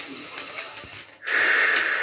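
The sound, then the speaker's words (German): A deep breath taken during a guided breathing exercise: a soft airy stretch, a brief pause, then a louder, sustained breathy rush of air. “Aber sei ganz bei dir, bleib ganz bei dir in deiner Kraft und atme mal ganz tief ein und aus.”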